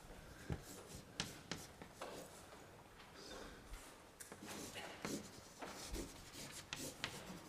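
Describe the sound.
Handwriting of a math derivation: quiet, scratchy pen strokes in short irregular bursts, with a few slightly sharper taps and scrapes between longer strokes.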